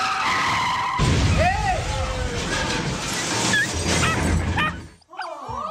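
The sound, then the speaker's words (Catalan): Tires screech loudly as a Cadillac skids in a serious car accident, a long harsh squeal with warbling pitch sweeps, while a dog barks and agitated voices are heard over it. “L'Ani i el seu marit han tingut un greu accident de cotxe.”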